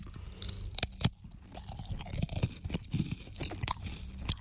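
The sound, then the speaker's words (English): Crunchy bites and chewing of food, several irregular crisp crunches and mouth sounds at a fairly low level, with no talking. “take one more bite of this food”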